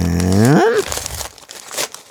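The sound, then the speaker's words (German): Crinkling of a small padded envelope being unpacked: brief dry crackles and rustles follow a short voiced sound with a sliding pitch at the start. “Einen kleinen Polsterumschlag für dich. Erstmal den ganzen anderen Kram wegpacken.”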